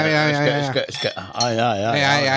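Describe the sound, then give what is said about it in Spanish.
Real wine glasses clink in a toast over a Coto de Rioja red in a studio. A few brief, bright glassy chinks sound beneath people talking steadily. “Mira. Hay copas de verdad en el estudio, ¿eh? Y vino de verdad.”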